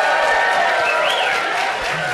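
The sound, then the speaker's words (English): An audience at a Martin Luther King Day event at Temple B'nai Israel applauds and cheers. Dense, steady clapping mixes with scattered shouts, staying loud throughout and easing off only slightly near the end. “We have a we want to say a studio audience. Let's hear some noise, folks.”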